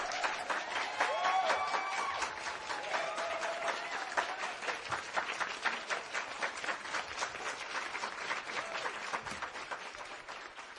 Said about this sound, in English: Come on, put your hands together for him.